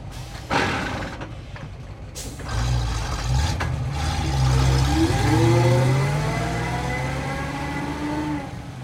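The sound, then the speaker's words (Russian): A bus carrying several people pulls up, its engine rumbling low and growing heavier, with a wavering whine sliding in pitch over the steady drone. “Подъехал автобус, в котором сидят несколько человек.”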